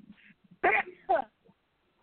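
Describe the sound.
A single person's sneeze comes as one sharp two-part burst in the middle, set among faint soft sounds.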